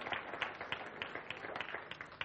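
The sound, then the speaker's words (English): Faint applause from an audience honouring a couple's second wedding anniversary: many quick, light claps run together in an uneven, continuous patter. “go on, give them a round of applause.”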